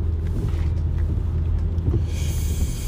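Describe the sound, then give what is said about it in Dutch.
Steady low engine rumble of a car on the drive home from Zutphen, an even, continuous drone with no talk. “Ik rij nu eh, vanuit uh, Zutphen terug naar huis.”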